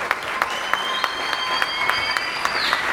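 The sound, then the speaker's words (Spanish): Audience applause for a community representative called up to speak at an assembly's inauguration: dense, steady clapping throughout with a few sharper individual claps, and a faint sustained high tone running over most of it. “Un fuerte aplauso para ella, por favor.”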